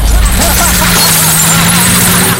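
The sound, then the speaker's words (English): A forklift truck smashes through a warehouse wall, a loud crash at the start followed by a continuous harsh, noisy clatter of debris and engine. “Pryor drives a forklift truck through the warehouse wall and scoops up Barb's bike.”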